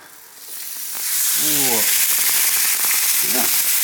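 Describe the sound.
A thin fish fillet laid face down in a hot pan sizzles and spits, the frying quickly rising to a loud, steady crackle, with brief voice sounds heard over it.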